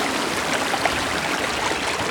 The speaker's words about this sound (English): you get these streams gushing out of little hidden gullies. And because we've had so much rain, they're really, really, really pumping the water out now.